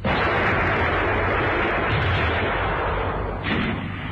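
Gunfire and explosions in a battle merge into a loud, continuous rumbling roar of dense noise, with no separate shots standing out.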